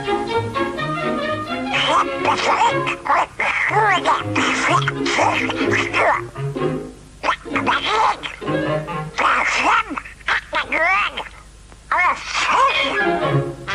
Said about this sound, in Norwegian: La oss høre hvordan Donald høres ut.